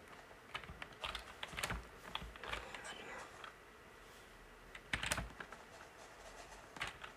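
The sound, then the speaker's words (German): Keyboard keys click on a computer keyboard during a video game, a key being pressed among many quick, light taps that come in uneven bursts and pauses. “Jetzt muss ich E drücken.”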